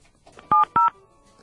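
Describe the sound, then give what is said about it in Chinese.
Telephone keypad dialing tones as a call is placed: two short, bright dual-tone beeps, each steady and evenly pitched, sounding alone in quick succession. “Let's call him， 我们打给他，我们要打给他。”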